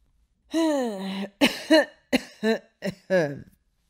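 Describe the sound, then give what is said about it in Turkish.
An old man coughs several times in quick succession, rough and voiced. A longer first cough is followed by a run of shorter, choppy bursts that fade toward the end. “Arka arkaya birkaç defa öksürdükten sonra sözlerine şöyle devam etmiş”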